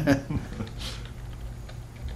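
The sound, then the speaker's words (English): Typing on a computer keyboard while entering a forum search, a few scattered key clicks heard beneath quiet talk. “You might want to backspace to make sure you're typing what you think you are.”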